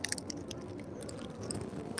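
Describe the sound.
Quiet, crunchy chewing of gluten-free half-hazelnut biscuits, a steady run of soft crunches and squishes with no talk.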